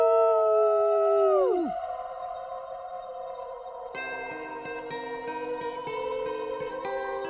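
A video game creature called a Howler Pod lets out a layered, eerie howl that holds steady and then bends sharply downward, followed by sustained, ringing electronic tones.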